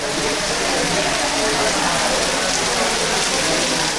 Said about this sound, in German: Jetzt plattert der Regen auf die Felder und Hütten. Vielleicht der letzte heftige Niederschlag am Ende der Regenzeit.